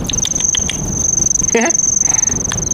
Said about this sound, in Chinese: 这蛐蛐倒不错，哪儿来的？